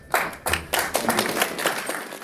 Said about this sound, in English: Now, let's talk about the slow clap. A slow clap is unlike any other clap.